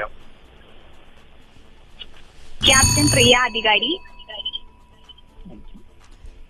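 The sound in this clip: Alarm buzzer sounding during a quiz, one loud, bright ringing burst lasting just over a second. Quieter talk comes before and after it.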